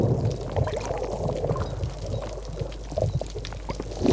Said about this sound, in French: C'est le bruit du ressac sur les rochers.